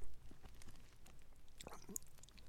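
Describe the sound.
Faint chewing of an extra-spicy miso dish with small pieces of meat, corn kernels and green onion: soft, moist mouth sounds with a few light crunchy clicks, low and steady throughout.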